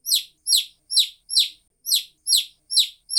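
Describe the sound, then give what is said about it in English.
Chicks cheeping in a steady run of high, thin peeps, each sliding downward in pitch, repeated at an even, quick rhythm with short silences between them. “Oh no, chicks!”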